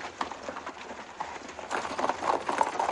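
Mounted police horses advance toward marching demonstrators, their many clip-clopping hoofbeats fairly faint at first and growing louder and denser in the second half.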